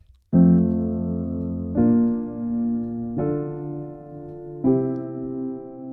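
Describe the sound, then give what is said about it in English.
A basic pop chord progression of major and minor chords played on guitar: four chords, each struck once and left ringing for about a second and a half before the next, clear and fairly loud. “I'm going to play a super basic progression that you would hear in a lot of pop songs. It sounds something like this.”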